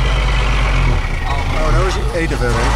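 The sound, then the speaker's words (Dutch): A truck drives on a busy road, its low, steady engine rumble droning throughout while a voice talks over it. “Wij van Radio NL rijden ook achter deze truck aan.”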